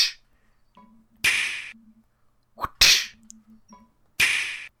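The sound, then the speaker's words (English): Soundboard ping pong ball hits: a few sharp, bright clacks with short silent gaps between them, two landing in quick succession like a return shot. “It just sounds like if I press it enough, it'll sound like two people playing ping pong.”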